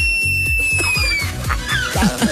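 A female sloth's high-pitched scream: thin, piercing whistle-like tones that fall slightly in pitch, heard over a busy, rumbling background, with more squealing tones toward the end.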